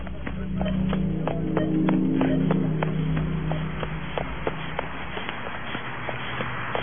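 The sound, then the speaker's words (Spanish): Running footsteps in a horror radio drama, someone hurrying toward a parking lot: a rapid, steady series of sharp taps over a low sustained drone, with no voices. “Mejor me voy corriendo a la casa. ¡Ojalá no me siga!”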